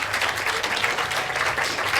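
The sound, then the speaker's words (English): Audience applause after a talk, a dense and steady patter of many hands clapping that holds at an even level throughout without a break. “Round of applause for Clement.”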